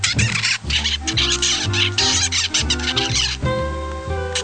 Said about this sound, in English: birds with rhythmic and repetitive songs which are often kept as pets. This is the sound of an adult. And this is the rather less predictable sound of a baby bird.